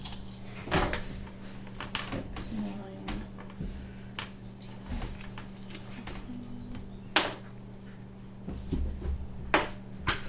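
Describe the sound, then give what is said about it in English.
Dice clatter on a table during a tabletop role-playing game, heard as a few sharp, scattered clicking bursts over a low steady hum, with faint voices at times. “She keeps rolling dice. I know. Dice on dice.”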